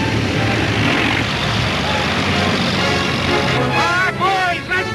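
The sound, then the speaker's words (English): Army bulldozers and construction vehicles rumble as a convoy along a sandy beach. Their heavy engines drone loudly and steadily throughout, and a voice is heard briefly near the end. “The convoy of construction vehicles starts off along the sandy beach. The army green bulldozers lead the orange cranes down the beach away from the ship. White smoke puffs out of the tractor's exhaust stacks.”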